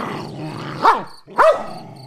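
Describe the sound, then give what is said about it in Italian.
An aggressive dog growls low and continuously, breaking into two sharp, loud barks a little over half a second apart before settling back into the growl. “Il cane non mi riconosce. Si lancia contro di me abbaiando, mostrando i denti e rizzando una cresta di peli grigi sul collo.”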